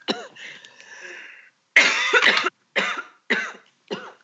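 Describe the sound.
Coughing from a tickle in the throat: a harsh, rough burst followed by three shorter, sharp coughs, each separated by a brief pause, fairly loud and with no talk over them.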